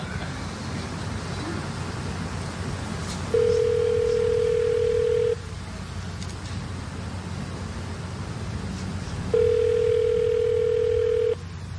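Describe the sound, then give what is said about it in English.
Telephone line tones after a number is dialed: two long, steady mid-pitched tones about six seconds apart, each lasting roughly two seconds, over a constant hiss of line noise. “I'm dialing the number, and please don't decode the number because it's a secret.”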